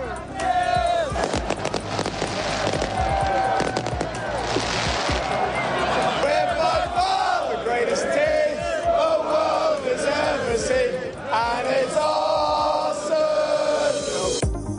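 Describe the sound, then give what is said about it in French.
Arsenal supporters celebrating their Premier League title as a loud, continuous crowd sings and chants in unison, with shouts and cheers rising over the massed voices throughout. “Des feux d'artifice aussi pour célébrer donc ce sacre d'Arsenal en Première Ligue.”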